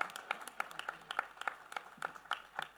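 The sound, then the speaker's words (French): A church audience applauding during a French-language service, with many sharp, distinct claps in a fairly steady rhythm over a quieter bed of scattered clapping. “Est-ce qu'on peut donner des acclamations pour cette bonne parole? Est-ce qu'on peut continuer d'acclamer le Seigneur?”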